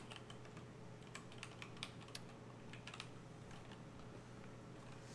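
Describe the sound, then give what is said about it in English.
Faint typing on a computer keyboard: many quick, light key clicks in an uneven rhythm over a steady low hum, with no speech. “Hold on, let me type this in.”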